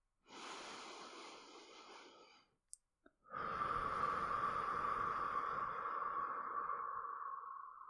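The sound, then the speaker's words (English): A deep breath taken during a counted-down breathing exercise: a slow, airy inhale of about two seconds, a short pause with a couple of tiny clicks, then a longer, steady exhale lasting more than four seconds. “Now let us take a deep breath again.”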